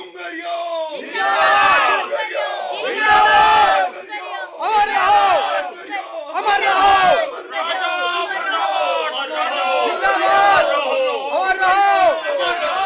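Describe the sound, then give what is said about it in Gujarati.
A large crowd gathered on a river bank near a goddess temple, shouting and calling out in loud repeated bursts. Many voices overlap and rise and fall in waves throughout. “તાંત્રિકજી, આ નદીના ઓવારે આટલી બધી ભીડ કેમ? શું ડુંગરિયા સાથે આટલા બધા લોકો આવે છે? જુઓ તો ખરા, ચારે બાજુ કેટલી બધી ભીડ જ ભીડ.”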